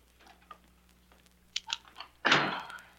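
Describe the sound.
A door lock is worked open: a few light, scattered clicks and rattles lead up to one heavier, louder clunk that rings out briefly at the end.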